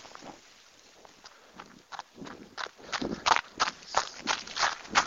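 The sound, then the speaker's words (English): Footsteps of a runner out on a January Sunday near a freshly shoveled street: steady, rhythmic footfalls that grow louder and more regular as the run continues. “I couldn't resist. I am out running on Sunday, January 31st.”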